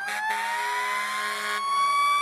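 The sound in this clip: A fire engine siren wails in a video game, holding a sustained, bright tone that slowly climbs in pitch, with a burst of rougher noise over its first half.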